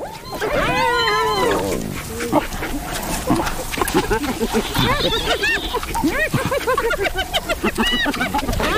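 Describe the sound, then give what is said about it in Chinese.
African wild dogs call in a dense chorus of high, bird-like chirps and twittering yelps that overlap continuously and stay fairly loud. “非洲野犬并不打算放弃。”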